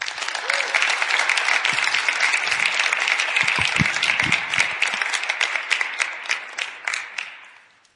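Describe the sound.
Audience applause welcoming a guest speaker at a church gospel gathering: dense, sustained clapping that holds steady, then thins and fades away near the end.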